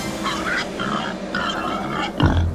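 Wild boars grunt and snort along a road in a rough, repeated series, with a heavier burst near the end.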